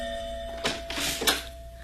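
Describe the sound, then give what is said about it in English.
A doorbell rings inside a home: two bright bursts about half a second apart, rising over a steady low hum, with no voices. “I was at home when my doorbell rang.”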